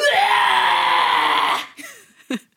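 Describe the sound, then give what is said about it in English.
A man's voice imitates a drunk man yelling while vomiting: one long, strained, loud yell, followed by a couple of short gasping, retching bursts. “My sister's husband, he yells when he pukes. I mean, drunk puking, obviously. But he yells. Like, I'm going to push the mic away and I'll do it.”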